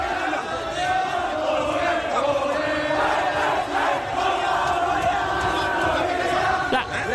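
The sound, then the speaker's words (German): Korean football fans cheer in the stands after World Cup qualification, a loud, continuous crowd roar of many voices shouting and chanting together without a break. “die Fans heulen auf den Rängen, die feiern sich halt ab, umarmen sich. Ich lieb's. Und so klingen happy koreanische Fußballfans eben.”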